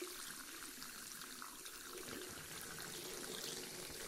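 Water runs through hair, rinsing out shampoo during a wash and scalp massage before a haircut, making a soft, steady, faint splash and trickle with no talking.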